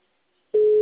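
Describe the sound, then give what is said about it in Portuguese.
A telephone line tone heard while placing a call: half a second of silence, then a single steady mid-pitched tone that sounds alone and holds unchanged to the end. “Mas estou ligando para esse aqui agora.”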